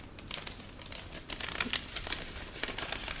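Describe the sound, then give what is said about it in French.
Paper envelope of question cards for a game being pulled out and handled, with a steady crinkling and rustling of paper and several sharper crackles throughout. “Donc je vais sortir l'enveloppe.”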